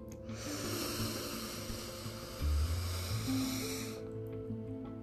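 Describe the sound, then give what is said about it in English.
A long, deep inhaled breath during a guided relaxation exercise, heard as a soft, airy rush lasting several seconds. Quiet, sustained ambient music tones continue underneath and after it. “And then we're going to take one more really deep breath in.”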